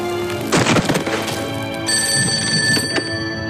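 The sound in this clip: An old telephone bell rings continuously and loudly at a wartime Chinese army command post during fighting against Japanese forces. The sound is a harsh metallic ringing with a few dull knocks mixed in.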